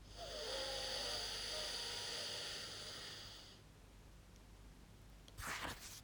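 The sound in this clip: Airy breathing through the nose during an alternate-nostril breathing exercise: a long, steady exhale-like rush that slowly fades into a quiet stretch, then ends with a short, sharper burst of breath.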